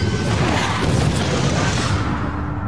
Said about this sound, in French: L'avion a explosé.